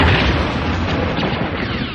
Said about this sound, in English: Suddenly, the ground in front of them exploded, sending a shower of dirt and rocks into the air.